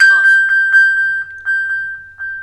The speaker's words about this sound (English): I should be able to touch directly on the ping icon.